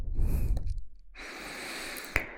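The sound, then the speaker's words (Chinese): Nervous breathing: two long, soft, airy breaths, the first with a breathy low rush and the second a thinner hiss, followed by a brief faint click near the end. “你的呼吸太急促了，不要紧张。”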